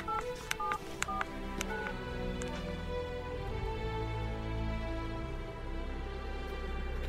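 A telephone being dialed: a quick series of many short dialing tones and button clicks in the first two seconds, then a steady low hum continues with no talking.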